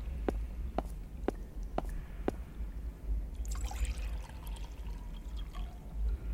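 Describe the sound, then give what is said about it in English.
Water is collected in a pot in a video game: a few light, drip-like plinks, then a soft trickling, pouring splash. The sound stays faint over a low background rumble. “I've collected some water in the pot. I don't know why, but... it's full of water.”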